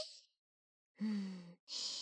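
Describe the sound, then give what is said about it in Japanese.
A deep breath let out during a guided relaxation exercise: a short breathy puff, a silent pause, then a voiced, sighing exhale followed by a soft rush of air. “大きく息を吸ってから、はい、吐いて”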